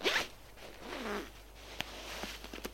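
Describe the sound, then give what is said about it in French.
Trousers being unzipped: a quick, raspy zipper pull at the start, followed by soft fabric rustling and a few faint clicks and taps. “Elle lui défait sa cravate, lui déboutonne sa chemise, lui défait son pantalon,”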